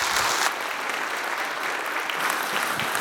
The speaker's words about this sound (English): Would you give me a warm welcome for Brad Bigney?